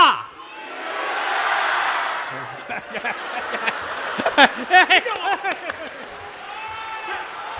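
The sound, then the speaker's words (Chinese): Audience at a Chinese crosstalk comedy show shouting and calling out: a loud crowd roar swells at first, then fades into voices talking amid scattered laughter. “咱们 央给他啊艺术家你看观众们一起呼喊 观众们的呼声啊”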